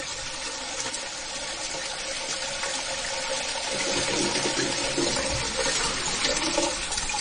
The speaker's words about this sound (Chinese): 冲咁耐嘅今次， 海浪声嚟嘅